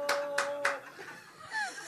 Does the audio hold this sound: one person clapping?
yes